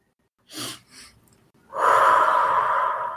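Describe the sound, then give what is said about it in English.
A physiological sigh: two quick inhales in close succession, the second shorter and softer, then a brief pause and a long, steady, breathy exhale that stays loud until the end, with no talking. “just do the physiological sigh. And that is just a matter of taking one deep breath, followed quickly by another inhale, and then exhaling it slowly”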